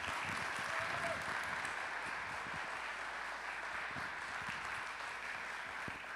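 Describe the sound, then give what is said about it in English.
A church audience applauds to welcome a guest speaker. The dense, even clapping stays fairly soft and steady for about six seconds. “Firewheel, can we give a hearty round and heartfelt welcome to Dr.”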